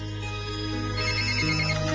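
An outgoing telephone call gives a steady ringing tone, held at even loudness for the whole stretch with no talk over it.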